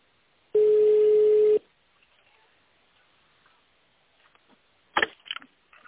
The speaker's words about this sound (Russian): Для связи с абонентом наберите номер в тональном режиме или оставайтесь на линии.